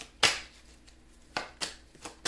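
Tarot cards being handled and shuffled during a reading give a few soft, papery riffles and flicks. They come as short bursts separated by quiet gaps.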